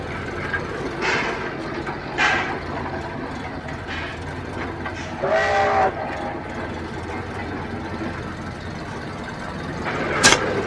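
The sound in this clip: A train rumbles past a level crossing with a steady low rolling noise. Several brief louder surges and a short whistle tone sound near the middle, and a sharp click comes near the end.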